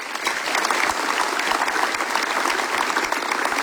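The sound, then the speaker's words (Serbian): Steady applause from an audience at a song festival, greeting the event organisers; dense, continuous clapping at an even, loud level for the whole stretch, with no voices rising above it. “Aplauzi za organizatore.”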